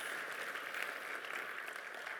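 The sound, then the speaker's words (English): An audience applauds mothers during a church service, giving a steady, even wash of clapping at a soft level throughout. “So can we just give our mothers a round of applause?”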